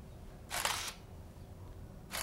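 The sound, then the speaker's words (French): A camera shutter fires for a portrait photo: two crisp, bright mechanical bursts, the first clear and complete, the second cut off at the end, standing out over faint low background noise. “Et maintenant... un beau sourire. On va vous tirer le portrait.”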